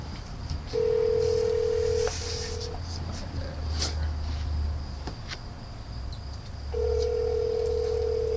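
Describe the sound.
An outgoing telephone call rings out unanswered, with a steady low ringback tone sounding in two long bursts separated by several seconds of faint line hiss.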